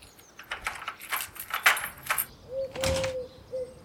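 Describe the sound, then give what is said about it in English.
Keys jangle and rattle in a door lock as someone tries to unlock a stuck door that won't open, a quick run of metallic clinks and scrapes followed by a steady, high squeaking tone. “The door won't open. Do you have your key with you, Little Dazzy Donuts? Well, perhaps Shasta locked it and went around to the garden. That's a good idea. I'll try unlocking it.”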